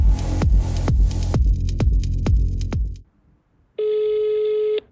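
Telephone ring tone as a call is placed: a steady electronic buzzing tone holds after a brief silence, preceded by a series of sharp rhythmic hits.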